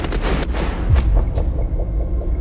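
Firing-squad volley of rifle shots at a fort south of Paris, a burst of gunfire with a few sharp cracks over a heavy, steady low rumble.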